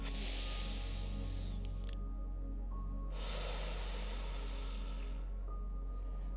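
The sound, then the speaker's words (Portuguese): Slow, deep breathing during a guided relaxation for sleep: two long, soft, airy breaths over a steady, sustained musical drone, with a quiet pause between them. “Vamos respirar mais uma vez, bem lentamente e profundamente.”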